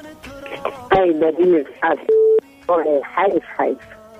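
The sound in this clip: A short, steady telephone tone sounds once between stretches of voices while a dropped call is being reconnected, its flat pitch standing out clearly from the speech around it.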